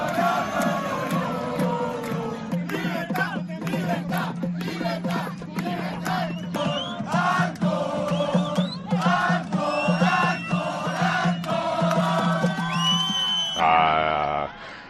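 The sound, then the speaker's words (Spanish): A large crowd of hundreds shouts, yells and cheers at a street protest in a Spanish town square demanding freedom, a loud, dense, continuous roar of voices with whoops rising throughout. “Ahí tienes, a centenares de memos reivindicando la libertad”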